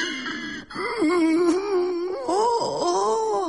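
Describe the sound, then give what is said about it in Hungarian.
A man crying in drawn-out, wavering wails, broken by a brief catch of breath between them, with the pitch sliding up and down as he sobs. “Ez az ember meg miért sír? Csak eszébe jutott a nagymamája, akit nagyon szeret.”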